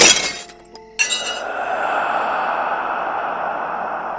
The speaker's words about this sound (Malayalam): എന്നാൽ പാതിരാത്രിക്ക് അങ്ങനെ ഒരു പാത്രം വീണുടഞ്ഞാലോ